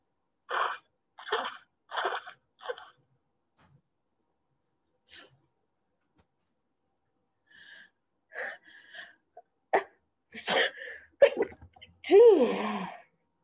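Sneezing from hay fever: four sharp sneezes in quick succession, then after a quiet pause a few more sharp bursts and breaths.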